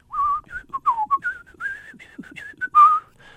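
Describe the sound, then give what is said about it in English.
A person whistles the first two bars of a tune: a clear melody of many short and held notes in a bright, fairly high register, with no talk over it and a louder final held note. “I would whistle you the beginning of the tune. I would whistle you the first two bars of the tune.”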